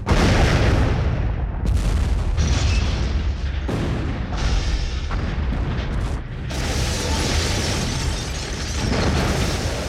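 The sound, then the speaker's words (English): A huge explosion as a rocket pierces the ground and destroys a great old house: a loud, sustained rumbling roar with several crashing bursts that rise and settle, continuing without a break to the end. “And that was the end of Nick and Willikins. As the rocket pierced the ground of Nick Hall, that great old house was utterly destroyed.”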